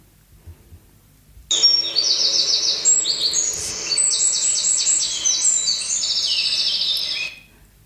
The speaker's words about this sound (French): C'est la nature. C'est la nature. C'est sérénité. Donc, c'est bruit des oiseaux.